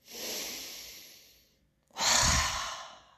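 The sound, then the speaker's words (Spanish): Breathing in a guided relaxation exercise: a long, airy breath fades to silence, then a stronger, forceful exhale with a breathy rush follows, with no talking. “en unas respiraciones bien inhalando por el pecho y exhalando con fuerza”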